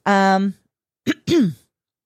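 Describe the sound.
Someone clearing a tickle from their throat: three loud bursts, a long voiced rasping one, then after a pause a short sharp one and a final voiced one, with no other sound.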